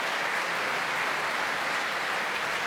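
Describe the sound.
A packed opera house audience applauds the conclusion of Verdi's Otello at the Royal Opera House, Covent Garden, with dense, continuous clapping at a steady loudness and no voices.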